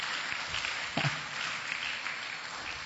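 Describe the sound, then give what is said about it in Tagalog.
A church audience applauds during a worship service held while a storm rages outside. The clapping is steady and fairly faint, a continuous wash of many hands that lasts throughout with no clear pauses. “Pwede ba palakpakan natin ang Panginoon doon?”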